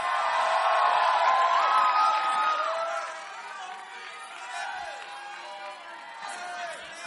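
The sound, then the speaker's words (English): A church audience applauding and cheering, with whoops and excited voices loudest at first, then settling to a lower, steady crowd roar. “Put your hands together for a powerful testimony. We have our final testimony. Help me welcome Ori to share her testimony with us.”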